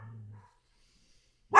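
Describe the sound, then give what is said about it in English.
A dog barks once, a single sharp bark cutting in at the very end after a faint low hum and a stretch of near silence. “A dog barking.”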